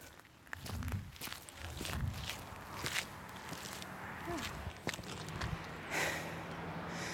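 Footsteps walking up the Menntavegur path to a hilltop, a steady series of soft outdoor steps with light scuffs over a quiet background.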